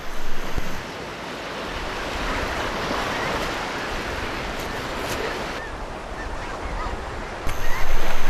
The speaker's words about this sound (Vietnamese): Những con sóng mạnh liên tiếp xô vào bờ.